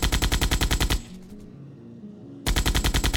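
Rapid gunfire from rifles and machine guns: loud, sustained bursts of evenly spaced shots that stop for about a second and a half of quieter rumble, then resume.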